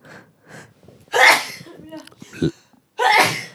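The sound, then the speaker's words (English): A couple of loud, breathy sneezes burst out, one in the middle and one at the end, amid soft talk and breathing. “That was a spacey sneeze.”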